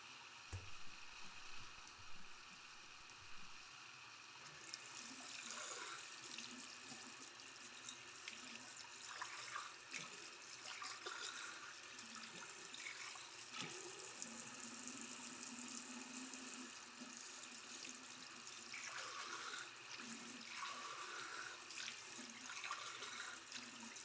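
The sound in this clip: A cup is washed under a running tap. After a few seconds the water flow starts and continues as a steady, faint rushing hiss until the end.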